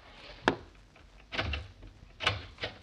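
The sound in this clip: A door being opened: a few sharp clunks and rattling knocks spaced apart, standing out over a low steady background hiss.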